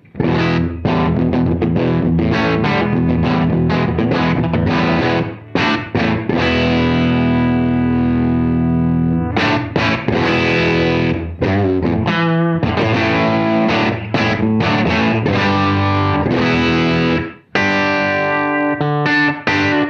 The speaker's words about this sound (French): Je vous fais écouter ça sur le micro bridge humbucker pour l'instant.